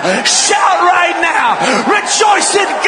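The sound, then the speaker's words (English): A church audience shouts, whoops and yells together in a loud, continuous, overlapping swell of excited voices during a fervent service. “Why don't you shake off those heavy bands of fear right now? If you haven't danced in a while, dance right now. If you haven't shouted in a while,”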